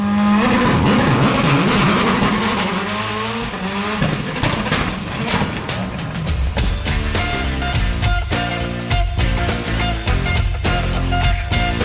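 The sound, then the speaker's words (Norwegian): A car accelerates on a road, its engine revving with rising pitch over the first few seconds before loud rock music with pounding drums takes over and masks it. “Nå har jeg en fin strekning. Jeg bare gi litt gass nå.”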